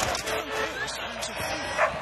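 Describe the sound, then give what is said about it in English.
Dog barking at a team sports match: a few short yips and barks come through under continuous talking voices. “What's this? It's a dog.”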